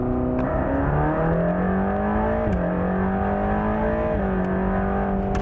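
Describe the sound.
A sports car engine revving under throttle, a loud, continuous, harmonic-rich roar whose pitch climbs gradually, then drops sharply twice, with no voices.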